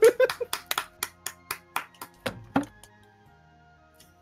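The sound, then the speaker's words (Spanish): A run of crisp, separate hand claps gives a brief applause. The evenly spaced claps slow slightly and fade out, leaving a quiet tail. “Un aplauso.”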